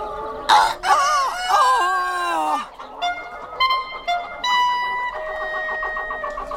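A rooster crows in a farmyard with hens clucking, opening with a long, strained warbling crow, then a run of short, overlapping clucks and calls.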